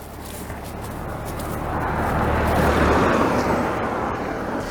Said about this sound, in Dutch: Ik laat de wagen even passeren.